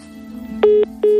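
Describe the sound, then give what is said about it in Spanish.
Two identical electronic line tones sound after a telephone call is hung up. The beeps are short and fairly loud, each lasting about a fifth of a second, over a faint low hum. “Colgó el teléfono, Julián.”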